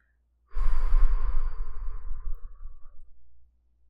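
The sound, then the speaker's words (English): A slow, steady exhale through the mouth during a breathing exercise: one long breathy rush of about three seconds that gradually fades, alone against silence. “three, four, and exhale through the mouth at two, three, four, five, six.”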